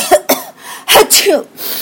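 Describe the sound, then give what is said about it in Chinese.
Sneezes burst out in a few sharp, noisy blasts, loud and uneven in spacing, with no talk around them. “最近身边的人有没有常常打喷嚏呢？”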